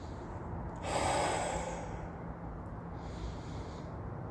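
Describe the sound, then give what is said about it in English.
A single slow, deep breath drawn during a guided breathing exercise, heard as a soft airy rush that swells and fades, alone over a faint steady hum. “please take this moment now to breathe with me.”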